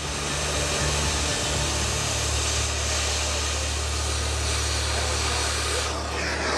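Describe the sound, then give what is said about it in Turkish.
A power drill bores a hole at a car wash site to fit a locking pulley, giving a loud, continuous whirring drone over a low, steady hum with no breaks. “Şimdi buraya bir delik açacağız”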